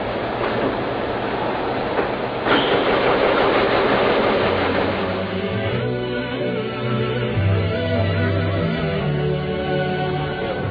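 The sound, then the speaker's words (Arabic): A silk-thread needle machine with 10,250 needles, used for making the Kaaba cover, runs with a loud, continuous mechanical rattle and a low droning hum that shifts partway through. “كم إبرة هذه؟ شايف؟ عندنا 10,250 إبرة. ما شاء الله ما شاء الله. إذا حبيت تشغل لك الماكينة. شغلة شغلة.”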